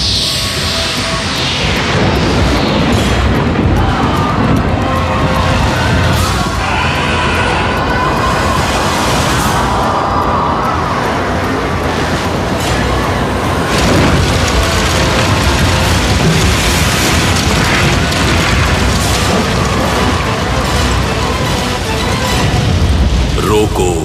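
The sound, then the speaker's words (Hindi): Explosive boom of a divine weapon being fired in a mythological battle, a dense, loud roaring rumble that continues without a break for the whole stretch. “Ashwatthama ने ब्रह्मशिरा चला दिया है उसे रोको पार्थ चलाओ ब्रह्मास्त्र चलाओ पार्थ”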